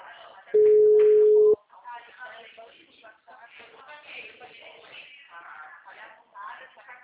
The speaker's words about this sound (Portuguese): deixa eu ligar para ela de novo